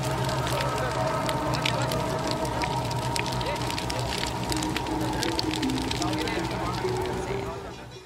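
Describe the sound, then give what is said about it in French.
Crackling fire from cremation pyres being stoked with long bamboo poles by male relatives, a dense, steady roar of burning alongside constant voices, loud throughout before easing slightly at the end. “Avec de longues perches de bambou brisant même les ossements pour que le cadavre se consume plus vite, les proches parents masculins des défunts activent les foyers avec la plus grande ardeur et dans un climat de joie sincère.”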